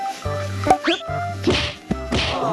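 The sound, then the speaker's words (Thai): Muay Thai strikes from the move called breaking the elephant's trunk: a few sharp, loud thwacks of a kick and follow-up blows, each with a quick swish, set against a steady tonal backdrop. “และท่าสุดท้ายคืออะไรครับ ก็เป็นท่าหักงวงอัยยราค่ะ”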